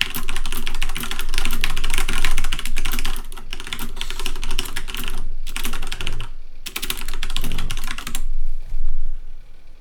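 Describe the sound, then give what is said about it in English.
Rapid typing on a mechanical computer keyboard, a dense run of clacky keystrokes broken by a few brief pauses, with no talking. “mechanical keyboards. You guys don't have mechanical keyboards?”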